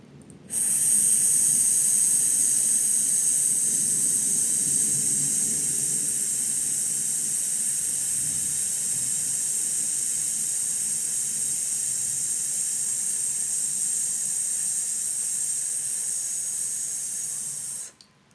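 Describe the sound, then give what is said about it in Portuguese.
A long, steady S hiss is exhaled in a breathing exercise, one unbroken stream of air lasting about seventeen seconds and fading slightly at the end. “e agora solta o ar com a consoante S em uma frase longa. Então, inspira e solta.”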